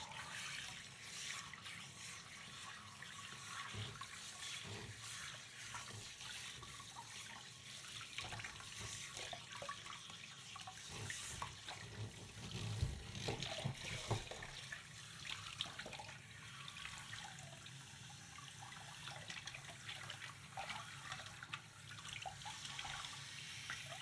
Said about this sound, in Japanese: おでこや耳についている泡も流して、また全体にお湯をかけて